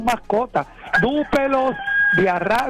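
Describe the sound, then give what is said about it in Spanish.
A rooster crowing: one long, drawn-out crow that holds a steady pitch before trailing off, heard over a man speaking in Spanish. “Escucha el gallo. Te lo escucho el gallo ahí.”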